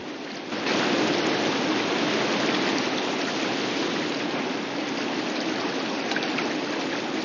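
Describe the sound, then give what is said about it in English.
River water flows between sets of rapids in a dense, continuous rushing hiss that stays level throughout, slightly quieter for the first half second, with no voices. “They follow the water's flow in somber silence.”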